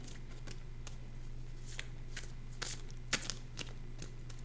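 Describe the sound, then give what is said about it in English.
Tarot cards being shuffled, heard as many soft, papery flicks and ticks in an uneven patter. They stay faint over a steady low hum. “So we shuffle, we flip, we use the card to our advantage”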